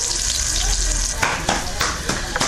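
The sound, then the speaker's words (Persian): Bolani, Afghan stuffed flatbread, frying in oil in a garden, a steady hissing sizzle throughout with a few soft clattering stirs breaking through near the end. “شمیلا جاوید مصاحبه ای را با یک تن از زنانی که مصروف پختن بولانی در باغ شهرارا است انجام داده است که آیا او هم در پخت و پز روغن زیاد استفاده کرده و یا زیاد سرخ می کند”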